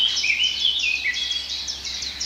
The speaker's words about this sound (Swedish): Svartättan igen och gransångarna är väldigt påtagliga här nu.